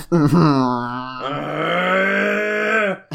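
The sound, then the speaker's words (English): A person gives one long, drawn-out groan of about three seconds. It is low, voiced and droning, with a brief vocal catch at the start, then holds fairly steady before cutting off. “This entire episode is just gonna be me groaning at Joe's puns.”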